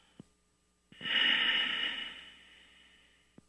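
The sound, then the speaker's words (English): A long, steady exhale of breath from the lungs with the mouth closed during a relaxed breathing exercise. It is a soft airy hiss that swells, then slowly fades, framed by a few faint clicks. “exhale the air now from your lungs and exhale.”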